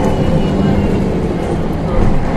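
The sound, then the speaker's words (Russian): Steady, loud engine rumble and road noise inside a moving bus. The low drone holds evenly throughout, with no distinct events. “Я опять в автобусе, 4 часа 15 минут, и еду я еще в одно место.”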